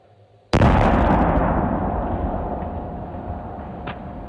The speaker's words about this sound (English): So that means we get to blow up pumpkins, right?